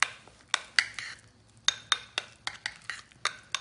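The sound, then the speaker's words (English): A utensil clinks against a bowl while mixing cumin, oregano, basil and paprika, with many sharp, bright taps and scrapes in a quick, uneven rhythm and a short pause in the middle. “we have oregano, we have basil, we have paprika. I think we're looking fly, people. I think we're looking fly. Okay, so I'm just mixing this. Hopefully you can see that. I'm mixing this.”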